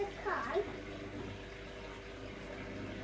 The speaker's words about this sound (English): That's the water when you rinse.